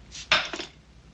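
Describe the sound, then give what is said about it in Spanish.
A plate tossed onto a table lands with a sharp ceramic clatter, followed a moment later by a softer rattle as it settles. “Disgustado, Joe tira el plato sobre la mesa.”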